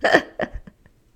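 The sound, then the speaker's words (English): Hiccups from a person: a sharp, sudden hiccup followed by a few quicker, fainter catches of breath that fade out within a second. “Excuse me, I have the hiccups.”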